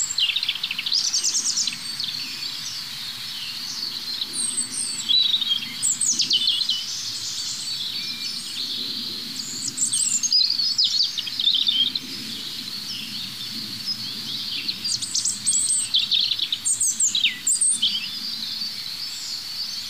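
Many birds sing at once, the songs of different individuals overlapping in a continuous high-pitched tangle of trills and chirps, steady through the whole stretch over a soft, low background.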